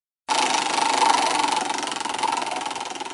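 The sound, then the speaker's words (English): A prize wheel spun during a question game gives a loud, continuous whirring clatter that starts abruptly and holds steady to the end, with no talk over it. “So what I do is I spin the wheel”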